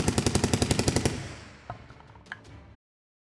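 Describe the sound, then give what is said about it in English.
Machine gun firing off a full drum of bullets: a fast, even burst of many loud shots lasting about a second, then a fading ringing tail with a few sharp clicks after. “you just see shells exploding out from this thing as he unloads an entire drum of bullets.”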